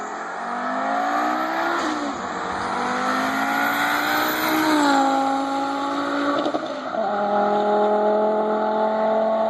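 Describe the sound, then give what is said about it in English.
A 2.5-liter 07K inline-five car engine revs loudly and continuously, its raspy note climbing in pitch, dipping back between shifts, then climbing again and holding steady. “And now, the 07K is the inline 5, and it's a 2.5 liter. And so everybody says architecturally it's half the V10 from a Lamborghini Gallardo, which is probably why it sounds like this.”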